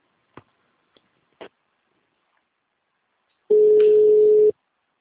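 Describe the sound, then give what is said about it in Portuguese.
A telephone call connects: a few faint clicks are followed by one steady, mid-pitched ringing tone lasting about a second, which stops abruptly. “Vamos lá, chegar essa ligação.”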